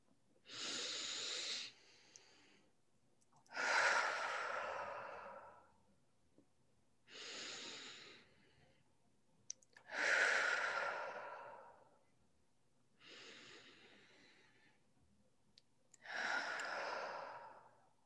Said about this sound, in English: taking three deep breaths just helps you ground in and connect in with yourself